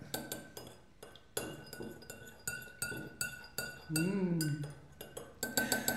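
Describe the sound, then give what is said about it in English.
A spoon stirs green food colouring into a mixture, making many light, sharp clinks and taps against the container in a quick, uneven rhythm. “Just a little touch of food colouring there. I think that'd be enough with it. Right, giving it a stir.”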